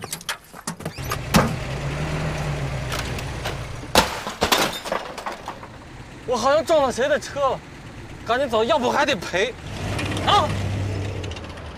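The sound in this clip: Car doors thump as people climb into a car, followed by a low engine rumble as it drives off. Several sharp knocks come early, and voices exclaim between them.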